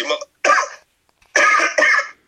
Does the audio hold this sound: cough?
yes

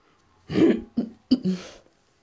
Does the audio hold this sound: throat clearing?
yes

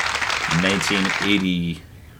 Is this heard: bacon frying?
no

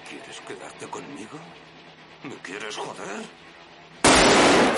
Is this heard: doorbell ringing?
no

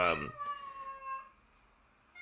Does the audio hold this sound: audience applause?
no

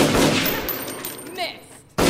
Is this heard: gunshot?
yes

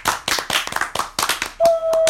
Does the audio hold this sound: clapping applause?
yes

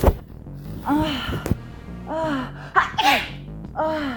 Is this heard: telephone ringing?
no

